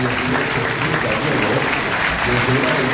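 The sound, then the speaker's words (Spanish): Crowd in a football stadium giving a standing ovation to a player leaving the pitch: a loud, dense and unbroken roar of applause that stays at an even level from start to finish. “Y ahí está Enrique marchando, así, ovación.”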